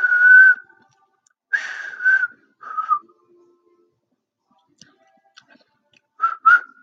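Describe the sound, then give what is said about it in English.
A person who has lost the knack of whistling makes several short, breathy whistle attempts. The notes are thin and wavering, broken by pauses, with a few faint lip clicks in the gaps. “Whistling, okay. I can't whistle anymore. I used to be able to whistle as a kid.”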